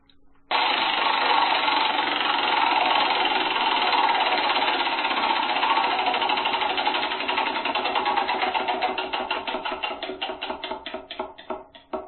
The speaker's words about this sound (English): will spin the wheel and we'll see what number it lands on